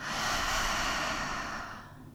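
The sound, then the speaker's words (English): Slow, deep breathing during a guided breathing exercise, heard as one long, airy, hissing breath that is steady and fairly loud before it fades toward the end, with no talk. “Let's do that 4 more times together, breathing in, breathing out,”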